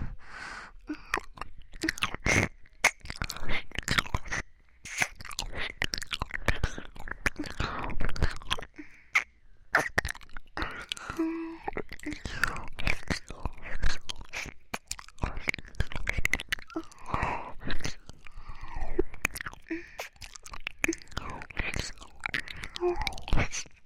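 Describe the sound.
Crunchy chewing of a fried chicken cutlet: many quick, irregular bites and crunches follow one another densely and fairly loudly, with soft mouth noises between them.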